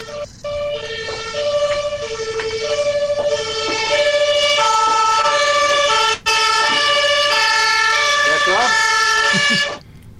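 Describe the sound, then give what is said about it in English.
A non-standard emergency vehicle siren sounds loudly and without a break for about ten seconds. Its tone steps between several pitches in a repeating pattern, with one brief cut partway through. “that was a non-standard siren to my American ears”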